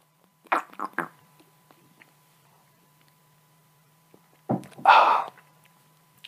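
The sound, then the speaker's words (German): A small sip of an alcoholic drink: a few short wet slurping bursts, then after a long quiet pause a louder, longer breathy gulping burst. “ich muss nochmal einen kleinen Schluck in den Schlund kippen und das brisseln lassen”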